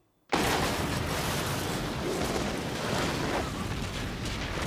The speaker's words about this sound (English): All right, there you go. The bomb works. They're going to collapse the entryway into that canyon system.